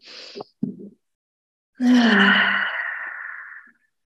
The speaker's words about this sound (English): And we're just going to take three long, deep breaths.